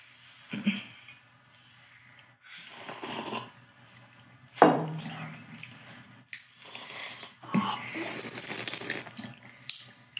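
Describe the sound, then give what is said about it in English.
Water runs from a tap as tasting spoons are rinsed between Kenyan coffee samples, coming in a few splashy bursts separated by quiet gaps, with one sharp clink in the middle. “That does it for coffee one. So we'll rinse off our spoons and move on to coffee two.”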